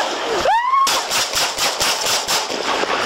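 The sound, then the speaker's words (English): Many sharp gunshots crack out in quick, fairly even succession during a police confrontation with a hostage-taker at a check cashing business. A brief rising tone comes just before the loud bursts. “Shots fired.”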